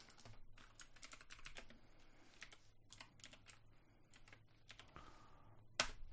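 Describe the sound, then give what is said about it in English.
Typing on a computer keyboard: many quick, quiet key clicks in uneven bursts, with a sharper tap near the end. “I'm just going to type it in the thing.”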